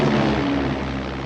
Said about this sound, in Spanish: Un biplano amarillo vuela sobre sus cabezas.